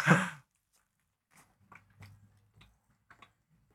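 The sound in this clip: Biting and chewing a grilled cheese sandwich: a short louder burst at the start is followed by faint, soft, moist chewing sounds in a few irregular bursts, with quiet gaps between them.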